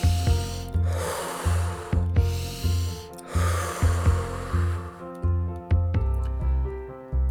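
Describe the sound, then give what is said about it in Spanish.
Forceful, powerful breaths during a breathing exercise, rising as a few noisy bursts of air over a steady background of soft sustained music, louder in the first half and thinning out toward the end. “respira más fuerte y poderosamente.”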